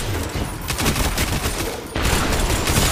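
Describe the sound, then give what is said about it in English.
Gunfire in a video game: a dense, continuous stream of loud, rapid shots that blur together into a steady crackling roar and grow heavier for the last second. “Who in the world shot that? I would love to know who in the world shot that was.”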